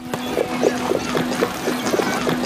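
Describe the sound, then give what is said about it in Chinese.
Hooves of a horse pulling a carriage clip-clop in a steady, quick rhythm of many soft knocks, with a constant low hum running underneath. “吁！这是御史大夫曹大人的马车，谁敢阻拦？”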